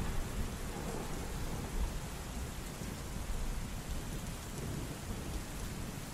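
Driving rain with thunder: a steady, dense hiss of heavy rain pounding down, with low thunder rumbling underneath throughout and no voices.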